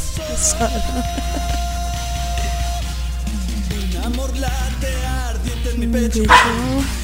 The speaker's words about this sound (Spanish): Están los perros de fondo.